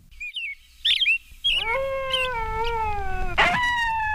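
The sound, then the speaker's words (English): A bearded seal's eerie mating-season call beneath ice-covered Alaska waters: a few short warbling whistles, then a long, sustained, drawn-out harmonic tone that drifts slightly in pitch, with a brief bright burst near the end. “The eerie call of the bearded seal resonates beneath ice-covered Alaska waters during the mating season.”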